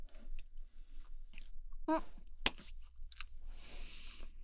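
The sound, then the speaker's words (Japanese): Someone chews the last bite of a meal, with faint wet mastication and a few soft, crunchy bites and clicks in an irregular rhythm, heard alone. “あー、おいしい。やだな、最後の一口食べたくないな。”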